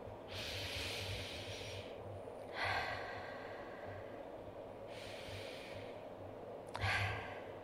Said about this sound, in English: Let's take some deep, slow breaths.